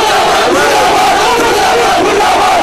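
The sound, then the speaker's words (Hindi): Protesters at a rally after Eid al-Fitr prayers chant slogans against the government and terrorist groups. A dense crowd shouts together, loud and unbroken throughout. “जिसमें शरीक मुजाहिरीन ने हुकूमत और दहशतगर्द तंजीमों के खिलाफ नारे लगाए।”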